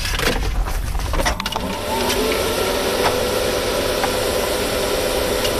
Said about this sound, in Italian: l'ideatore del robot, collega le batterie, gira la chiave e schiaccia il bottone d'accensione